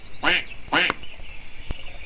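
A duck quacks twice in quick succession, two short, nasal, harmonic-rich calls, followed by a faint sharp click and quiet background noise.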